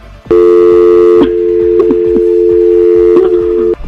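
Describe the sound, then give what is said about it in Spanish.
Steady telephone tone after a call is hung up, a loud continuous hum lasting about three seconds, with faint clicks over it, then cutting off abruptly. “Simplemente yo te voy a colgar la llamada.”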